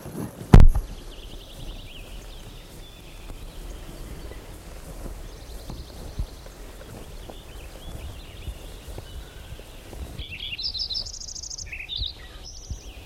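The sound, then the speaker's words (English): A Lincoln's sparrow sings, its faint high trilling phrases coming and going before a clearer, brighter burst of song near the end, over a low rumbling background. “Lincoln Sparrow number one.”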